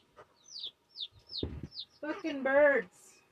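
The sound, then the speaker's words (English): Pet birds chirping indoors, a series of several short, high chirps that each slide downward in pitch, followed by a person speaking. “Fucking birds are noisy. Little guys, you wanna go outside?”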